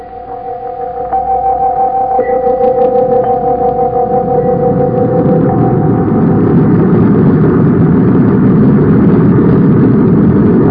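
A spaceship's rockets roar at blast-off for Mars, a low rumble that builds over the first two seconds into a loud, steady roar while an earlier two-tone hum fades beneath it.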